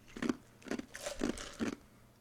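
Ice left over from a glass of stevia-flavored black tea is crunched between the teeth in four distinct, evenly spaced bites, faint and crisp.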